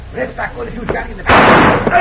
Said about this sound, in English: My hand! Cisco shot the gun out of my hand!